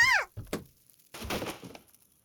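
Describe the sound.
Objects knocked over and falling from a shelf in a room, heard as a few dull thuds and a scattered clatter, preceded by a brief meow-like voice at the start.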